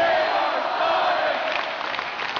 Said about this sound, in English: That game was last Sunday night, and as it ended, the crowd was chanting, "Save our Sonics."